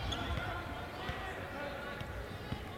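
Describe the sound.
A basketball is dribbled during a game, giving a few faint, soft thumps of the ball on the court beneath a steady wash of background noise.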